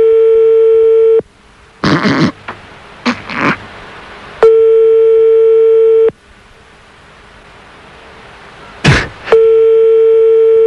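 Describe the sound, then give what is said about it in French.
Ringing tone of an outgoing phone call to France: a steady mid-pitched tone sounds in three long pulses, with short bursts of noise in the gaps between them. “Ça sonne en France, quelque part.”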